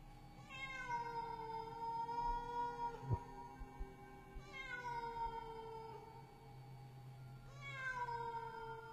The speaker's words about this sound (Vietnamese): Vừa đặt chân xuống bếp, thì tiếng mèo kêu thảm thiết lại vang lên.